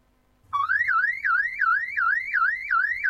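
An electronic alarm sound effect cuts in abruptly and warbles in repeated rising sweeps that climb and then drop back, loud and alone with no voices.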